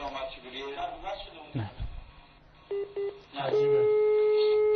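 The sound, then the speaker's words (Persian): Telephone touch-tone dialing while a call is placed: voices talk at first, then two short beeps sound, followed by a long steady tone that holds to the end. “حالا اجازه بدید با همین سیستم بگیریم ظاهرن.”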